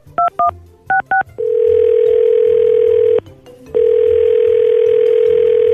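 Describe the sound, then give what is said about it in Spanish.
A telephone call is dialed with four short keypad beeps in two quick pairs, followed by a loud, steady dial tone that holds for nearly two seconds, breaks briefly, and then resumes at the same pitch. “ya está dando línea”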